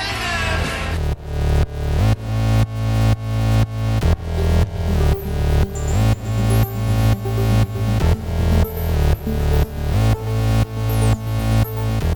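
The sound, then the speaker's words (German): Intro music plays alone, a driving electronic track whose loud, pumping pulses repeat in a steady, even rhythm throughout after a brief opening. “Aufnahme läuft, Intro ab.”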